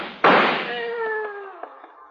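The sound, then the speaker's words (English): A single sharp gunshot effect from a radio drama cracks out, followed at once by a sustained voiced cry that slowly falls in pitch and fades. “Hey, come back. Come back or I'll shoot.”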